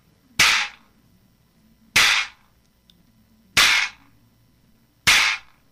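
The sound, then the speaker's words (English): A Peruvian quijada, a donkey jawbone with loose teeth, is struck four times at an even, unhurried pace, each sharp crack followed by a brief buzzing rattle of the teeth that quickly dies away. “So when I hit on the kind of bigger side of the jaw, it will make the teeth rattle, and it sounds like this.”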